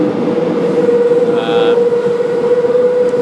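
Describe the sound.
A Paris metro train ride brings a loud, steady rumbling drone with a sustained humming tone, and partway through a brief higher whine rises over the noise.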